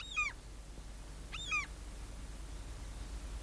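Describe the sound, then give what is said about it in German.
Common seagulls cry twice, each a short, high, falling mewing call about a second apart, over a steady low rumble. “Ich habe sie noch nie in solchen Schwärmen gesehen. Das sind doch wohl Möwen, nicht? Ganz offenbar, meine Liebe, gewöhnliche Möwen.”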